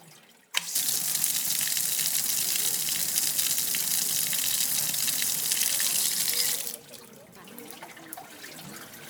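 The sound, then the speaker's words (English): Water flows steadily from a 16th-century stone town fountain in an old city. The loud, broad rushing starts abruptly, holds evenly for about six seconds, then cuts off, leaving faint background sound. “It's one of the city's oldest fountains, dating from the 16th century.”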